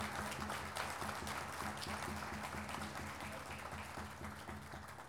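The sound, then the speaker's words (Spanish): Applause from an audience at a pluricultural gathering celebrating indigenous languages: dense, steady clapping that continues throughout and fades slightly toward the end. “Un fuerte aplauso, por favor, para el senador Mayur Lapaz”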